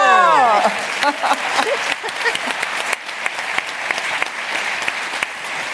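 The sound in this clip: Applause greets an editor welcomed as a guest on a show. A brief falling tone opens it, then many hands clap in a loud, steady patter that carries on evenly to the end.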